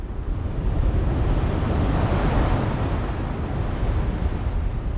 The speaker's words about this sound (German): auf beiden Seiten der Burg hörten sie Meilen und Meilen schwarzer Föhrenwälder rauschen, wie düsteres Meer um einen Felsen.